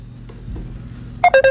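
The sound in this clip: A telephone ringtone cuts into a voice-message playback. A rapid run of short, bright electronic beeps bursts in near the end, loud over a low murmur of background sound.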